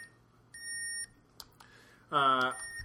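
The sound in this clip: Breathalyzer beeping: one steady, high electronic beep lasting about half a second, then a louder, fuller tone near the end, with faint background noise between.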